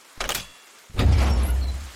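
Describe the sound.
A door being opened: a short, soft clatter, then a louder sliding rush with a low rumble that continues to the end, with no voices.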